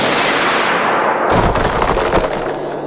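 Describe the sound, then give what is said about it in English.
A sci-fi laser blast fired from a character's eyes at a granite mountain: a loud descending sweep gives way to a dense, crackling, rapid-fire roar that continues steadily to the end, with no voices. “Laser eyes!”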